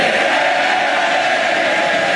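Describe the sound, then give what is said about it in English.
MPs heckle in the House of Commons as the Speaker introduces Andy Burnham: a loud, continuous crowd roar of mingled shouting and jeering that stays even throughout, with no single voice standing out. “The Speaker of Parliament introducing Andy Burnham, and then in Parliament's rumbustious nature, there was some heckling, making sarcastic references to the death of a Roman dictator”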